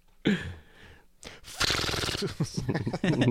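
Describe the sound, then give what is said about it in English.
Quick, papery fluttering of cards flipped through a Rolodex, a dense burst of ticking between stretches of speech. “Also the sound of you going through your Rolodex.”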